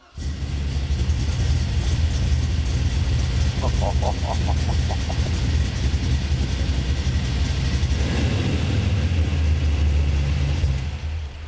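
A car engine runs at idle after starting, its electrical wiring fully redone and now connected through a single plug. A loud, steady low rumble holds throughout, with no voices.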